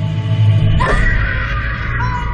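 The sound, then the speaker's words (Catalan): Screams in a horror film, a sustained high, strained cry rising out of a dense, low rumbling backdrop after a short, quieter opening, with no clear talk. “Crits, deu ser de por, la pel·lícula.”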